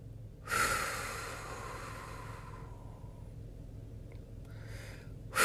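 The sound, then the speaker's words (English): Deep breathing to calm down: a long, breathy exhale that slowly fades, then a second breath near the end, steady and unhurried with no talk. “Let me just gather my thought for a second. Let me breathe for a second.”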